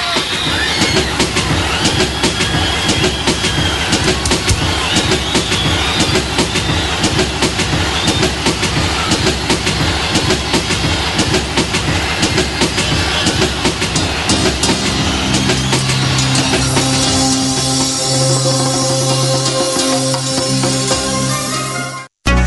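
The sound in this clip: A train passes with a loud, steady, rhythmic clickety-clack of wheels over rail joints that runs for about twenty seconds before stopping abruptly.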